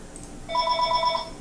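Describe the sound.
A telephone rings with a rapid, warbling electronic trill, one steady burst that starts shortly into the moment and holds at an even loudness.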